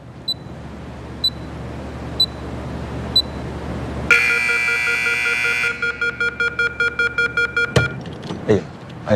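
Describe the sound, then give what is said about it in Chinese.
Electronic timer beeping after a door is locked: four evenly spaced, high, short beeps, then a loud sustained electronic tone, followed by a quick, regular run of many beeps over a low background hum. “就这个滴滴滴这个声能不能给它关了？特像 CS 里边匪徒下包那个。”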